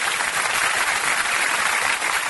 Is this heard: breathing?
no